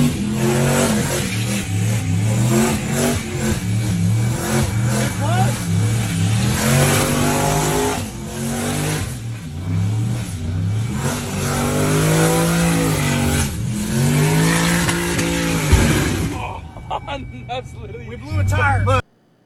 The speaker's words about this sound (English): He blew a tire. Yeah. Good. It's because he doesn't know how to do a proper burnout.